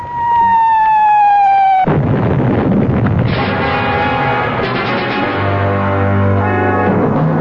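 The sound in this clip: Bombardment in a radio drama: a loud whistle sliding downward in pitch ends in a heavy explosive blast. A second burst follows, then sustained rumbling and crackling noise.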